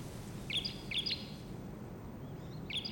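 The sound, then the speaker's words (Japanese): Small birds chirp in a quiet, empty setting: faint, short, high tweets come in a few brief clusters over a soft, steady background hiss. “小鳥が鳴いておる。”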